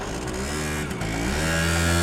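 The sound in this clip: A motorcycle engine drones as it rides off with a passenger, a steady harmonic hum that grows slightly louder toward the end, with no talk.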